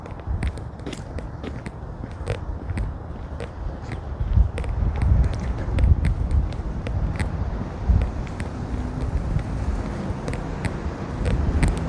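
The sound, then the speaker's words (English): A cold wind blowing outdoors, a steady low rumble of wind buffeting the microphone, with scattered faint clicks and ticks and no speech. “And it is a cold wind.”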